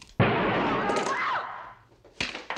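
A gunshot in a radio drama lands as a sharp, loud blast with a rough tail lasting over a second. A second, shorter crack comes near the end.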